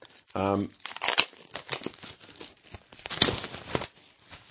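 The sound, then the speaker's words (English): Shrink wrap crinkling and tearing as it is peeled off the Alternity Core rulebook, a digest-size, full-colour book, with many irregular crackles and rustles following a short vocal sound at the start. “It's me unwrapping my Alternative Core rulebook.”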